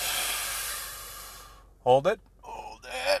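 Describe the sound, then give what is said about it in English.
A group of people draws one long, deep breath in together, a steady breathy hiss that then gives way to short bursts of voice. “Take a breath with us, everybody. Yeah, ready? On three, we breathe in.”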